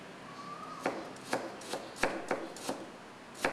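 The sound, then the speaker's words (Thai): A knife slices an ingredient thinly with seven crisp, sharp cuts at a fairly even pace. The cuts stand out alone against a quiet background. “ก็ลอกเอาเนี่ยออกนะครับแค่นี้เองนะครับแล้วก็หั่นนะฮะแล้วเราก็ซอยบางๆนะครับ”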